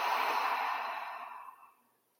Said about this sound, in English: And open mouth, exhale, release.